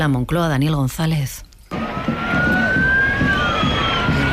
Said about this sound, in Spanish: Sí, ese es el sonido de la manifestación que acababa en el Arco de Moncloa.